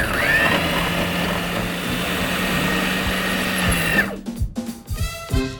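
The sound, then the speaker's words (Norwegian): A blender purées food seasoned with salt and pepper, its lid on, giving a steady, loud whirring motor drone for about four seconds before it cuts off, followed by a few brief, irregular sounds. “Litt grann salt. Og pepper. På med lokket. Og så kjører vi det til en jevn masse.”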